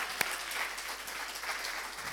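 An audience claps at a church service, producing faint, steady applause from many hands with one sharper clap standing out near the start.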